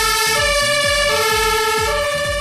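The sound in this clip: A fire engine's siren wails as the truck drives out on a practice call, heard from inside the crew cab. The loud two-tone siren alternates steadily in pitch over a low, pulsing engine rumble.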